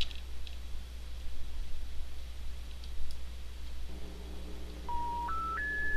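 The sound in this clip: Telephone keypad tones as a code is punched in: faint clicks over a steady low hum, then three short tones in quick succession, each higher than the last.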